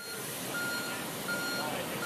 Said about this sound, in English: This sound of construction is almost ubiquitous in Greater Boston this summer